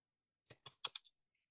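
Keystrokes on a computer keyboard: a short run of about half a dozen crisp, faint clicks in quick, uneven rhythm, alone in otherwise silent surroundings.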